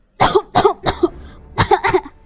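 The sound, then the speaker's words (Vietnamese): Dry, hacking coughs from a man gripping a table edge and coughing up blood: five harsh bursts, three close together, a brief gap, then two more. “Kiều Vĩ Minh đầu tiên là cười to, nhưng sau đó đột nhiên ho khan, bám lấy cạnh bàn, vừa ho vừa thổ huyết.”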